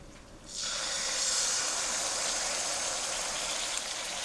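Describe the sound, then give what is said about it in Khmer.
Sudden loud sizzling hiss as thick, undiluted coconut cream goes into a hot cooking pot, starting abruptly after a quiet moment and holding steady to the end. “ចាឃើញថាវាចាប់ដើមរលាយហើយបន្តមកទៀតនេះខ្ញុំសូមដាក់ខ្ទិះដូង”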